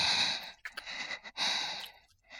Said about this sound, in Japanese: 先輩の湿った吐息が私の顔にかかって、